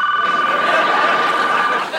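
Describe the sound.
A telephone rings with a steady, slightly warbling high electronic tone. The ring holds for most of the two seconds and then cuts off just before the end.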